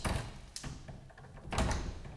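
Keys being tried in the door locks of a plenary hall: a few sharp clicks and metallic knocks, with a louder rattling burst near the end, over a faint background and no talk.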